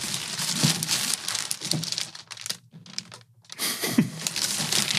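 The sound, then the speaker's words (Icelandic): Wrapping on a mystery gift package crinkles and tears as it is opened: continuous crisp rustling and crumpling with a few sharper rips and one brief pause midway. “og það sem ég að fara að gera núna er að fara að opna það mystery gjöfin”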